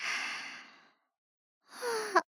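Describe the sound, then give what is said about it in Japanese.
A big, sleepy yawn. A long breathy exhale fades out, and after a pause comes a stretched, voiced yawn sound that ends in a short sharp catch. The whole sound is fairly quiet, with no other voices. “大きいあくびね。眠いの？”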